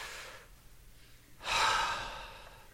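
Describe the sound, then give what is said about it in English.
A deep breath is taken: a faint breath at first, then a louder, longer airy breath that swells quickly and tapers off slowly, heard alone without talk. “Listen, just take a deep breath with me for a moment.”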